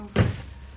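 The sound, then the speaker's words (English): A door shuts with a single dull thud in a scene involving a Major, the sharp knock fading quickly into a quiet background. “Oh, close the door.”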